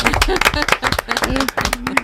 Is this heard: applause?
yes